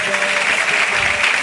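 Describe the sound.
Audience clapping hands along with a devotional chant at a religious gathering. The clapping is dense and steady, blended with a mass of voices and holding an even loudness for the whole moment.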